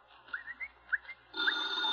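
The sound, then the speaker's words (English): A faint telephone ring, with a few short, high chirps followed by a sustained, high, trilling ring. “Get the phone, huh?”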